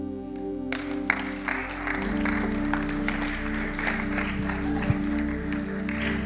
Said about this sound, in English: So let's give Melina another hand.